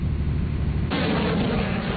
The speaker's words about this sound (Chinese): 随着射击指令的下达，远程多管火箭炮对海上靶标实施精确打击。